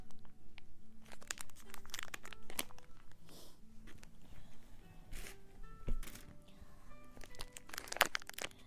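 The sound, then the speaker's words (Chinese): A snack package is torn open and crinkled, producing irregular bursts of plastic rustling, crackling and tearing. The crisp, uneven noises vary in loudness and continue for several seconds, with a sharp crunch near the end. “我要打开吃了哟。”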